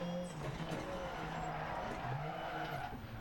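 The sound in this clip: A rally car engine roars at full throttle in the racing video game DiRT 2.0, its tones shifting as the tires skid and squeal, all loud and continuous.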